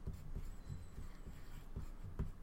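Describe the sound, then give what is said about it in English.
Faint scratching of someone writing something down, soft irregular strokes with light taps, alone at a low level. “Okay, so I wanted to write mine down so I couldn't change them after you said your book.”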